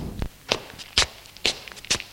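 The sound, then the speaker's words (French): Someone sitting down on the first steps of a wooden staircase: a few sharp wooden knocks and soft shuffles spaced roughly half a second apart, quiet, with no voices. “Elle s'assoit sur les premières marches de l'escalier de bois.”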